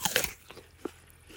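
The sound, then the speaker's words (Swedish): Someone bites into a crunchy apple picked in an orchard during a drought: a faint, sharp crunch at the start, followed by a few soft chewing crackles. “Har du smakat på några av äpplena än så länge? Nej, men låt oss göra det.”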